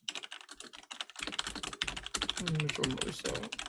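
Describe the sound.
Rapid typing on a computer keyboard: many crisp, irregular key clicks pattering steadily, growing slightly denser and louder toward the end.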